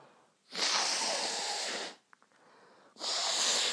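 A person blowing their nose: two long, loud, breathy rushes of air, the first about a second and a half, the second starting after a short quiet gap with a faint snuffle.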